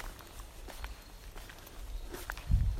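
Footsteps walking in the shade of evergreen trees: a steady run of soft, crunchy steps at an even walking pace, moderately quiet, with a slightly heavier step near the end.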